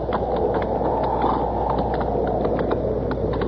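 Hooves of an injured horse with a bad leg, walked slowly over open country ground, giving a few faint, irregular clops over steady low background noise, without voices.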